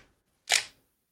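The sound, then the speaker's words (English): A single sharp metallic click as a Benelli shotgun bolt is pulled apart, brief and crisp against near silence. “I'm saying this, maybe I'll pull this apart and show it, because when you go to rack, your bolt goes back, your lifter comes forward.”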